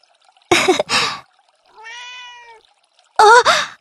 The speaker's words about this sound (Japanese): 猫だ！猫さーん！猫さーん！かわいいね、猫さん！